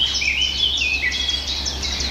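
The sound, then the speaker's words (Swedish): Eurasian blackcap singing in a forest: bright, high whistled phrases that rise and fall in quick warbling runs, over a steady low rumble. “Svarthättan igen.”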